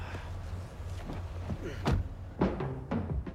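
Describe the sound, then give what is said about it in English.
Car doors open and shut as two people get into a black sedan: a few dull thunks and knocks stand out over a low, steady rumble. “David and the passenger enter the car.”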